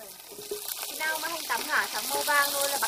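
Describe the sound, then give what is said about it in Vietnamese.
Shallots sizzle in hot oil in a pan as they are fried for a Vietnamese dish before shrimp paste is added. A steady, bright frying hiss runs continuously beneath talk. “Mình phi hành tắm cho thơm cho nó dày mùi xong, mình bỏ một tí ruột vào cho nó dày mùi.”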